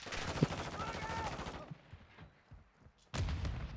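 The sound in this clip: Shotgun fire in a video game: a couple of sharp, loud blasts, one early and one near the end, separated by a stretch of quieter background game sound.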